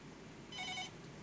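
A telephone ringing as a listener calls in: one short, faint electronic trilling ring cuts in over a low steady hiss and stops quickly.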